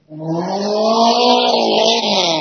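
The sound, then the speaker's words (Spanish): A race car's engine revs at full throttle at the start of a race, a loud, sustained, buzzing note with strong harmonics that holds steady and climbs slightly in pitch. “acelerador de a fondo para la máquina 207”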